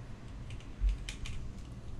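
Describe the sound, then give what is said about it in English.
A few quick keystrokes on a computer keyboard, faint light clicks over a low background hum. “Could you type Mushu?”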